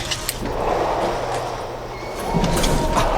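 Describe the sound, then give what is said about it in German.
An airlock door slides open in a radio drama, a steady mechanical hiss over a low hum that swells louder toward the end. “Die Schleuse öffnet sich.”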